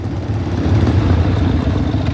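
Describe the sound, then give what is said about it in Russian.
A motorcycle brakes and pulls up nearby, its engine a steady, loud low rumble with a clattering edge that holds fairly even throughout, with no talk. “Рядом тормозит мотоцикл.”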